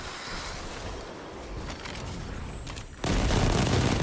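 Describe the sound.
Gunfire in the video game Destiny 2 during a Crucible match: a dense, continuous barrage of shots with booming, noisy texture that grows louder and fuller toward the end.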